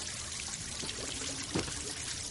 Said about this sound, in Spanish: Más tarde, Tel se lava la herida. El agua se tiñe de rojo.